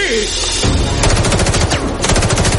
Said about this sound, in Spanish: Un disparo le alcanza en el hombro.